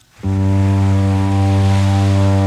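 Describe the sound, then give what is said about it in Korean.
A passenger ferry at an island village sounds its long horn: one loud, deep, steady blast that starts after a brief moment of quiet and holds unbroken to the end. “섬마을에 울려 퍼지는 여객선의 긴 고동소리는 남녀노소 할 것 없이 모두의 마음을 설레게 만들죠.”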